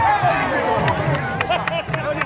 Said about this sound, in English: That's the sound of a crowd cheering on their favorite boxer. They're attending a traditional boxing match in northern Nigeria.